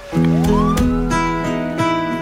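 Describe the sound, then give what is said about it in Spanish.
A siren-like wail opens a song played by tango musicians: a single tone climbs steadily and then holds high. It sits over sustained instrumental tones with a few accented attacks, and no voices. “Empieza con una sirena así horrible, ¿no?”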